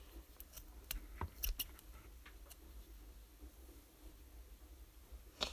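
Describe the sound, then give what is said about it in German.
Faint scissor snips and small clicks as someone tries to cut a small piece through the middle while making a DIY riding crop for a hobby horse. A few brief, dry ticks are scattered over a quiet background. “probiere jetzt gerade was aus. Und zwar das in der Mitte durchzuschneiden. Und das funktioniert nicht.”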